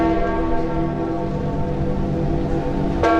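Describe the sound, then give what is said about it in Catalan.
Church bells toll a death knell for a pope's death, a deep, sustained ringing full of layered overtones that hangs throughout, with a fresh strike arriving just before the end. “El toc de morts de les campanes de tot el món”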